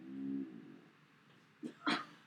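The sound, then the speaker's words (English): A dog makes a faint, low, drawn-out tonal noise, then, after a pause, two short separate bursts of sound close together. “That was not a fart. That was my dog.”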